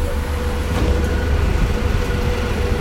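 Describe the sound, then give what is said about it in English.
Ambience inside a city bus: a steady, low engine and road rumble with a constant hiss over it, even in loudness throughout. “let's throw back to Esther, who was on the bus, and some general ambience.”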